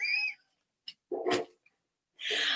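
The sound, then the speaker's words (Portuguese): A cat meows in a few short, separate calls with near-silent pauses between them, the cries bright and nasal. “E até também eu peço desculpa pelo gato.”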